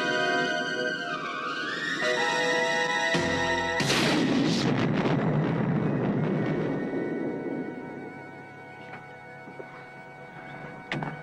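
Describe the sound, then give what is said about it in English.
A bazooka fires in a 1987 action film scene: a steady tonal drone gives way to one loud, booming blast that decays slowly over several seconds. “Bazooka, Rowdy? It's the only gun I can hit a moving target with.”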